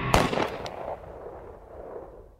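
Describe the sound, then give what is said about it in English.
Gunshots fired during a chase through thick jungle: a few sharp, cracking bangs come in quick succession near the start, the first loudest, then a low rumbling decay fades away. “They chase him through the thick jungle. It gets intense. There's a brawl, and shots are fired.”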